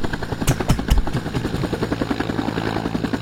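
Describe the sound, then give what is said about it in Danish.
A Vietnam-era military Huey helicopter flies with a steady, rhythmic thumping of its rotor blades over a low engine drone. A few heavier thumps stand out early on, and no voices are heard. “Nå, man skulle ikke lige høre helikopteren. Jo, det er da rigtigt, ja. Den er her. Det er heller ikke den. Jo, det er. Det er en Huey's.”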